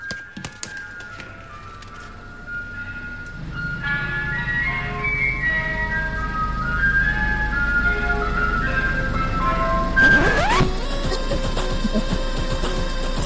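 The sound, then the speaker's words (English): A Mr. Whippy ice cream van drives past playing its tinkling melodic chime tune continuously over a low traffic rumble, with a loud rushing whoosh near the end. “There was a Mr. Whippy van driving past, but they knew I was recording because this is what it actually sounded like.”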